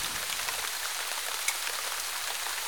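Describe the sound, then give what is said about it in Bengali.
Heavy rain pours in a steady, dense hiss of countless drops. The wash stays even throughout, broken only by a single slightly louder drop in the middle. “নির্বাক নিষ্পন্দ কয়েকটা মুহূর্ত কেটে গেল, শুধু ঝমঝমে বৃষ্টির আওয়াজ”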